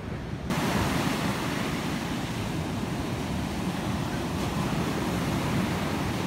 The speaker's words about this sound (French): L'air marin, c'est sympa. Déjà ça. La mer.